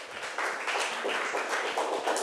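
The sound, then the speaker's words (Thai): Clapping from students in a classroom, applauding three classmates: uneven, moderately quiet bursts of hand claps that come in loose clusters rather than a smooth roar, continuing throughout. “ปรบมือให้ทั้ง3คนหน่อยค่ะ”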